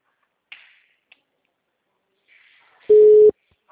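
Telephone ringing tone on an outgoing call: one brief, steady, mid-pitched beep near the end, preceded by a few faint clicks and a soft hiss.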